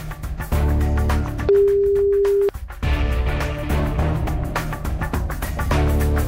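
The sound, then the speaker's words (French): A telephone ringback tone during a radio call-in contest, a single steady, pure, sustained note lasting about a second while the loud background music briefly drops away, then resumes. “7h20, c'est l'heure de faire sonner un téléphone quelque part.”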